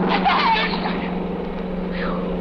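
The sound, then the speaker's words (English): A car speeding away in a hurry, heard as a steady, loud engine rumble with broad road noise that holds throughout the short moment. “Whoever's driving that car was in a big hurry. Oh, he almost hit you.”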